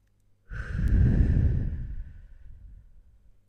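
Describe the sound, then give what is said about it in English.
A long, deep breath taken during a guided meditation: one loud, airy whoosh that starts abruptly and slowly fades away, with no talking. “Close your eyes now and take a few deep breaths again.”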